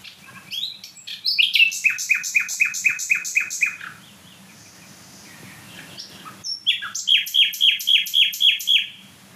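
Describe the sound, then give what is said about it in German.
A nightingale sings two loud bursts of song, each a rapid run of repeated, sharp, ringing notes, separated by a pause of a couple of seconds with only faint background. “Also hier stehen die wieder mal von der Nachtigall. Boah, die richtig Gas gibt.”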